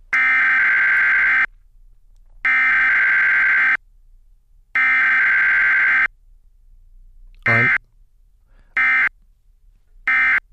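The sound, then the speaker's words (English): Emergency Alert System tone for TV and radio: three harsh, buzzing bursts of roughly a second and a half each, separated by short silences, then a few shorter bursts. “The new emergency alert noise for TV and radio is this.”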